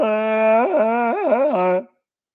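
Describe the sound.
A voice imitating the growl of a Wookiee, the giant dog-like creature of a cult space film: one sustained, buzzy, nasal tone lasting under two seconds that wobbles in pitch twice near its end before cutting off into silence.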